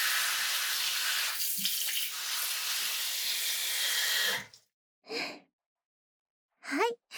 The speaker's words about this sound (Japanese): あとは後頭部のあたりを軽く流して、